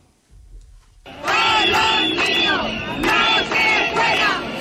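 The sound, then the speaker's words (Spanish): Crowd noise in the streets of Ceuta: after a quiet first second, loud massed shouting erupts and holds, rising and falling in rough bursts of voices. “Escuchad las calles de Ceuta ayer.”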